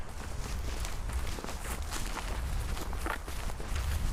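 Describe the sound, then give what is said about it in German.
Footsteps trudge over an overgrown, wildly vegetated meadow on Tempelhofer Feld, a steady run of rustling, crunching steps through grass with a low rumble beneath, continuous and fairly loud throughout. “Ja, tatsächlich stapfen wir hier über eine wild bewachsene Wiese, wie sie hier überall ist.”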